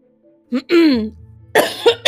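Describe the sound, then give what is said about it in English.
Throat clearing and coughing from allergies, a few short rough bursts with a brief voiced rasp between them, loud and close. “It's my allergies, I swear. Um, I mean, we're not in the same room together, so it's okay. I know, but like I'm sure they're tired of listening to me clear my throat.”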